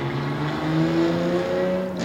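A beat-up BMW's engine drones steadily as the car drives away, a rough, humming tone with layered harmonics that stays fairly loud throughout, with no voices over it.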